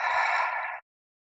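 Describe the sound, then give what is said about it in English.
A single deep breath from a mindful breathing exercise makes a soft, airy whoosh lasting under a second, then cuts off into silence. “We take a big deep breath in through our nose, and we let that go out through our mouth.”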